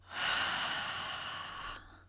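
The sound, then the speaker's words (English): A single long, slow exhale during a guided breathing exercise: a soft, breathy hiss through the mouth lasting well over a second, heard alone without any talk. “Inhale. And exhale.”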